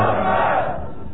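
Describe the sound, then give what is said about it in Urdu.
A crowd shouts slogans at a rally speech, a dense, loud roar of many voices that holds for about a second and thins slightly toward the end. “اتنے ڈھیلے نعرے میں اپنی تقریر میں برداشت نہیں کروں گا کیونکہ یہ میری شان میں نہیں لگتے۔”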